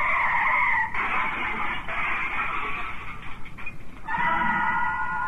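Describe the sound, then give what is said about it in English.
Car tires skidding under hard braking, a loud, sustained high-pitched squeal that wavers and briefly breaks up before resuming, alone and without speech. “Something looms up before you. You'll never get past. So you try hard to stop, but you're going too fast.”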